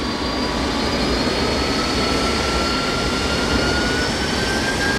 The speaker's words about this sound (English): The plane taxis toward the runway.